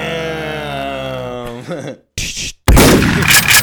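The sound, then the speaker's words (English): Gunshot sound effects: a sustained tonal sound breaks off, then two loud, harsh bursts of noise follow, the second longer and louder. “Damn, put the guns away, sir. Put the guns away. We don't need those today.”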